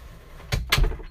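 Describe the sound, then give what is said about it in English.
A bedroom door swings shut with two quick, close knocks, the second slightly louder, over faint room hiss. “that was my door shutting”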